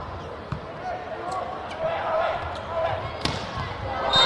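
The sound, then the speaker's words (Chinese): A table tennis ball bouncing before a serve in a match, heard as a few light, sharp taps spaced out under a commentator's voice and a low background murmur. “王耀斌来发球。”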